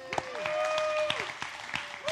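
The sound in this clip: A church audience applauds to welcome the worship pastor, with brisk, scattered clapping throughout and sustained tones and voices mixed in.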